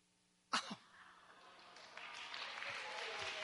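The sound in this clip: A single sharp sneeze bursts out abruptly against a quiet background, then a steady faint hiss and murmur continue.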